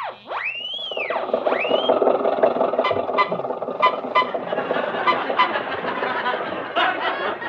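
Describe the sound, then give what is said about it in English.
An old Maxwell car driving along a highway: a swooping, wailing tone at the start gives way to a steady, rattling chug with regular clanking pulses throughout. “Jack and Mary are driving back from San Francisco, where we did our last broadcast, so we'll pick them up in the Maxwell en route to Hollywood. Take it away, Highway 99.”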